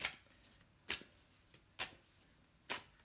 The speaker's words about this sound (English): Okay, here we go. Let's pull a card for fire. Pull a card for fire. Pull a card for fire.